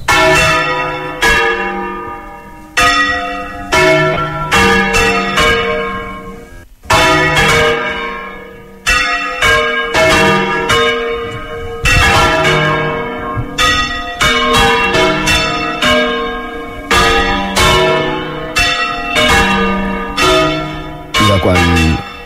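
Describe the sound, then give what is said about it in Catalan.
Church bells ringing on All Saints' night, a loud, continuous peal of many overlapping metallic strikes with rich ringing tones, sounding in quick, uneven succession throughout. “quan toquen les campanes aquell vespre, quan sonen així,”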